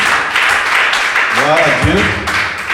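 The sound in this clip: A church audience claps and acclaims during a service to welcome a visitor from Naples, a loud, continuous patter of applause with a voice briefly rising over it.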